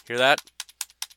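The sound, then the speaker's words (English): Keys click on a wireless Logitech keyboard that is failing to work properly. A voice speaks briefly first, then several sharp, separate clicks follow in a quick, uneven run. “Hear that? That's the sound of the keyboard not working.”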